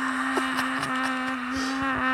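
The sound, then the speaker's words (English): A voice imitates a car doing a burnout at the Goodwood Festival of Speed, holding a sustained, buzzing engine-like drone at a steady pitch throughout. “He went to do a burnout, and the car was just like”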